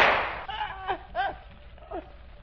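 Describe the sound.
A single sharp gunshot from a radio drama, fired in a deadly struggle between a gun and a knife. The noisy blast comes first and decays over about half a second, then quieter gliding sounds follow.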